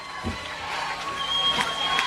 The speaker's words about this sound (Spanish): recibiendo también el aplauso del público, puesto en pie, pues saludando a los Star